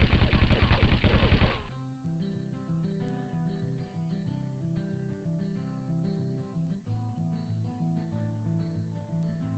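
A rapid volley of gunshots fired at a man, loud and densely packed for about a second and a half, then cut off as sustained music takes over.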